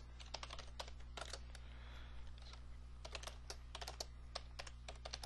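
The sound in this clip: Typing on a computer keyboard into a list box. Many quick, faint key clicks fall in an irregular rhythm over a low, steady hum, with no talking.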